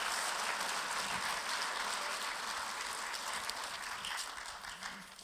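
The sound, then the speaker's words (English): An audience in a church applauds its volunteers with a steady, dense wash of many hands clapping that holds level and fades slightly at the end. “Can we give a great big round of applause for our volunteers?”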